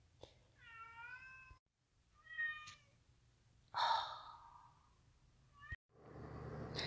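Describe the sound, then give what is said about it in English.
A kitten meows a few times in short, faint, rising calls with quiet gaps between them. A noisier burst follows near the end, and no one speaks. “you may hear my kitten in the background”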